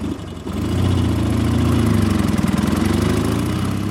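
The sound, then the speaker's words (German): A car engine runs as the car is driven on a trip through the Black Forest. Its low, throbbing drone swells after a quieter first half-second, then holds steady and loud with a fast pulsing rhythm. “Er fährt nach Königsfeld, um Schweitzer zu besuchen.”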